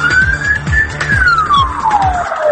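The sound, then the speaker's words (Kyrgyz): A police car siren blares loudly as an emergency vehicle's special signal. Its wailing tone climbs slightly, then sweeps steadily downward over a fast, repeating low pulse. “Кандай учурда кимдер бул атайын сигналдарды ушундай эле баягы жарык берүүчү каражаттарды колдонгонго укуктуу.”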